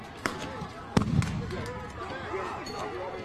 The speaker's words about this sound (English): Flash bangs.